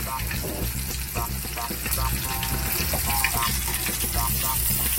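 A sandwich frying in a pan: a loud, continuous sizzle that crackles steadily throughout with no pause.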